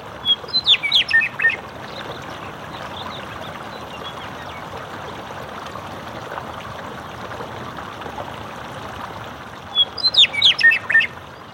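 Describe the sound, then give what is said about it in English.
A meadowlark sings beside a hot springs runoff channel on a sagebrush hillside, two bright, warbling song phrases, one at the start and one near the end, over the steady, soft rush of flowing water. “And there was a meadowlark who flew in and just perched very close to me and the microphone and just sang his heart out.”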